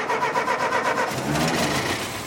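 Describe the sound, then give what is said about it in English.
A hundred-year-old Ford Model T engine starts with a quick, rhythmic chugging that settles into a lower, steady rumble, loud and without voices. “Model T. It's one of those old-timey Fords with a small windshield and tires that look like they belong on a mountain bike. Even though it's 100 years old, it still starts.”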